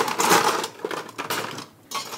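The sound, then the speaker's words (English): Ice is taken out for a gin cocktail, a few sharp, clattering rattles and clinks of cubes, loud at first and then in short uneven bursts. “So, and get some ice out.”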